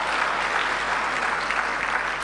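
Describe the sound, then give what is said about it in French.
Audience applause at a gathering, steady dense clapping from many hands, sustained and even throughout at moderate loudness. “Merci, voilà, applaudissez s'il vous plaît.”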